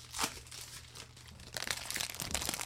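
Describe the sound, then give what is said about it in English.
Crinkling and crackling of sealed trading card packs being torn open and the stuck-together cards peeled apart: a sharp crinkle near the start, then denser, louder rustling and crackling through the second half. “Let's also crack the packs now, right. So we're not doing it through the episode. Right, and I should crack the cards. Because they are all stuck together.”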